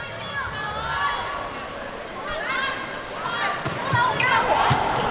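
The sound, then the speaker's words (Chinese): Volleyball serves and hits from a Chinese team's match: a few sharp ball impacts stand out over a steady crowd roar, with voices talking throughout. “看看中国队的发球”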